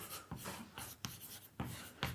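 Faint scratchy strokes of writing on a board come in a few short, uneven bursts, each a quick dry scrape with quiet gaps between.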